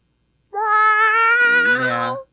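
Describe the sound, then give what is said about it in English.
A person imitates a cat's meow in one long, loud, voiced mew against silence. It holds steady, then turns lower and rougher before cutting off. “there's nothing more upsetting than when someone does an impression of a cat.”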